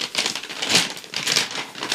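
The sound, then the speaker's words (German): Gift paper crinkles and crackles as a present wrapped in a lot of sticky tape is unwrapped, giving a continuous, fairly soft rustling with several louder bursts and no talk. “Pack es doch einfach aus und quatsch nicht so viel.”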